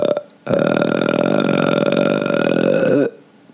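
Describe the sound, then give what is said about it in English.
A single long, loud burp after eating dog food, low and buzzy with a rattling texture, held for over two seconds before trailing off with a brief waver, alone without talk. “That was a dog food burp.”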